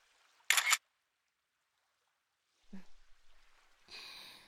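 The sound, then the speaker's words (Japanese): A camera shutter fires once, taking a photo meant to match another on a tablet: a sharp, bright click, then a few seconds of quiet before soft handling rustles and a faint breathy sound. “これで見比べながら同じ写真撮ろうと思ってさ。こうかな。”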